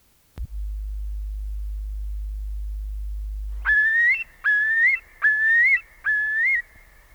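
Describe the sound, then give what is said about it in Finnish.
Common gull calls: four repeated high, mewing cries, each with a slight upward lift at the end, following a steady low hum. “Kalalokki.”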